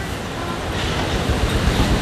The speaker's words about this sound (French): Mais vraiment, c'est une mer un peu déchaînée, quoi.